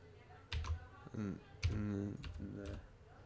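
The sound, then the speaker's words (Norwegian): Quick bursts of keystrokes on a computer keyboard as a search is typed into the Steam search field, uneven clusters of taps with people talking over them. “Faen, må jeg skrive i søkefeltet òg. Det hjelper.”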